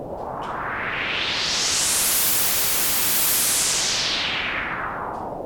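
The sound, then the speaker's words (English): A synthesizer noise swish with filter resonance, used as a riser: a steady hissing wash that opens up brighter and swells toward the middle, then gradually narrows and softens again, with no voices. “That gives us that extra swish kind of sound, which is a bit more fun. So if I was doing a riser, that's a fairly easy way then to do it.”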